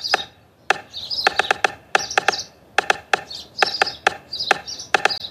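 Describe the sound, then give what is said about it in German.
A person imitates a stork clattering its bill, producing rapid, sharp woody clicks in irregular bursts with short high squeaky tones in between. “Um sich verständigen zu können, klappen Störche ihren Schnabel auf und zu, sodass ein klapperndes Geräusch entsteht. In der Tat, ich demonstriere.”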